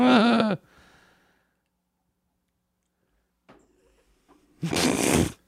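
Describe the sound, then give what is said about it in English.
A voice fakes a burp with a short, loud, croaky sound. A long quiet pause follows, broken by faint rustles, then a burst of noisy breath near the end. “That was a false burp. That was not a real burp.”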